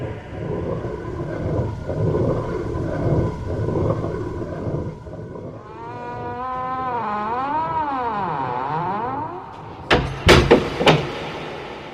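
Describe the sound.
A huge castle gate closing: after a rumbling wash of noise, a long groaning creak with wavering pitch swings up and down, then a few heavy thuds land as it shuts.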